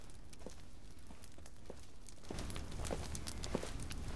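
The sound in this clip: Footsteps of a man walking past his men and waiting villagers, faint, regular steps that grow slightly louder toward the end.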